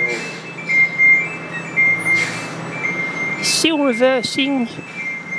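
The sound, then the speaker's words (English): A large lorry reverses, its engine rumbling steadily under a high, sustained beeping tone. A person's voice is heard briefly near the end. “it's Robin Cooper in London Town, and here's the sound of a large vehicle, a lorry, reversing.”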